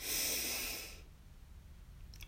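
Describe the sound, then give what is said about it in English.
A deep breath drawn in through the nose during a guided breathing exercise: one airy, hissing inhale lasting about a second, followed by near silence. “So let's breathe in”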